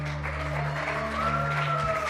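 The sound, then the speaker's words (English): Applause from a church audience at a Christmas service rolls along as steady, moderate clapping over sustained musical tones. “So I just want to give a huge, huge thank you and big clap to the Lord for all that he did yesterday at the Gift of Christmas.”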